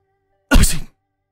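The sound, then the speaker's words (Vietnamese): A single forceful sneeze from a man stepping out of a relay inn: one short, loud, noisy burst, heard alone in silence. “Vừa ra khỏi dịch quán, hắt hơi một cái thật mạnh.”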